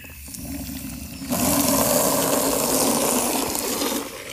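Water gushes into a horses' water trough being refilled. After a quieter moment the sound starts abruptly as a loud rushing hiss and holds steady and even.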